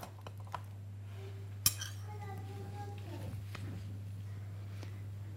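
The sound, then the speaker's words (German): A lid set back onto a mixing container while preparing a cake batter: one sharp clack, with a couple of faint clinks around it, over a steady low electrical hum. “Und dann kommt der Deckel wieder drauf.”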